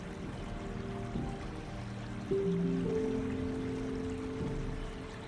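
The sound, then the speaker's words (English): Soft lapping of water against a boat, a gentle, continuous watery wash that stays quiet beneath sustained, calm musical tones. “And the rhythmic movement of the boat and the soft lapping of water propel you further into relaxation now.”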